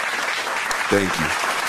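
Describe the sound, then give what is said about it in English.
Applause from an audience clapping for a fraternity group: a steady, dense wash of many hands throughout, with a brief voice speaking over it partway through. “Let's give a round of applause for the Bama Noobs, you feel me?”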